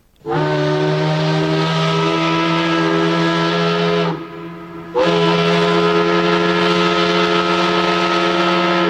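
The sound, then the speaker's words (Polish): A factory whistle sounds at dawn in Łódź: a loud, low, brassy blast with rich harmonics that holds steady for about four seconds, dips briefly, then resumes at full strength and holds to the end. “Pierwszy wrzaskliwy świst fabryczny rozdarł ciszę wczesnego poranku”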